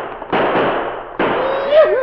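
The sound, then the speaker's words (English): Two gunshots from a six-gun revolver fired into the air, each a sudden loud blast trailing into a long, noisy rumble. “took out his six-gun and fired into the air.”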